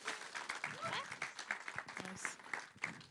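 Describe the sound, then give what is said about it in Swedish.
Scattered applause from a stage show audience, faint and patchy, with voices talking over the clapping. “En stor applåd.”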